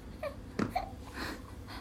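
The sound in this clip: A three-month-old baby fusses while rocking in a bouncer, with faint whimpers and breathy little cries in a few short bursts and soft breathing between them.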